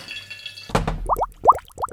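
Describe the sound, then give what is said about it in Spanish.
Fish broth bubbling as it boils: an initial splashy burst, then many hollow plops, each sweeping upward in pitch, popping at an uneven rhythm, fairly loud and with no voices. “Y eso que borbotea es el caldo de pescado que ya está hirviendo, listo para coceros.”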